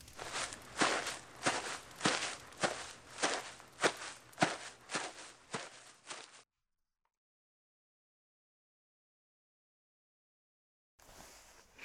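Footsteps of someone walking off to go upstairs to bed: a steady, evenly spaced series of many firm footfalls for about six seconds, then silence, and a brief faint sound at the very end.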